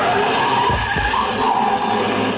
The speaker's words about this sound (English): a car started up down the street